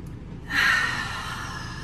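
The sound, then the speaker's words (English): A single deep breath drawn in slowly, a soft breathy rush that starts partway through and holds steady to the end, alone with no talk. “we invite you to close your eyes right now with us and take a deep breath.”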